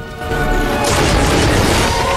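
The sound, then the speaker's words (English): A walking stick crashes down on a floor in a loud, heavy boom. The broad, rumbling burst swells and stays dense rather than dying away at once, with no voices. “Nanny McPhee crashes her stick on the floor.”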